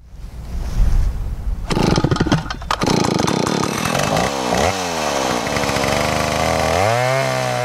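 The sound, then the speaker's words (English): A chainsaw works at logging in British Columbia, beginning with a low rumble. It then breaks into a loud, buzzing engine whose revs climb and drop again and again, with clear pitch swoops near the end. “Every year in British Columbia, that sound rings out thousands of times. Logging has been a big part of BC's economy for more than 100 years.”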